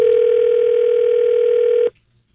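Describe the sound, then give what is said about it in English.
A telephone dial tone as a call is placed: a loud, steady single-pitch hum that holds for nearly two seconds, then cuts off into quiet before a brief click. “And we placed a phone call.”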